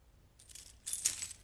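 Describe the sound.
Keys jangling as they are handed over: two brief, bright metallic jingles, the second louder and longer, with no talk.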